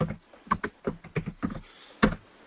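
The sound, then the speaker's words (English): Keystrokes on a computer keyboard as a short password is typed: a quick, uneven run of clicky taps, then one firmer key press after a brief pause. “In case you wonder, I type in A B C D E.”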